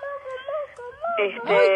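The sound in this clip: A baby cries in wavering, whimpering wails that rise and fall in pitch and grow louder and more strained toward the end.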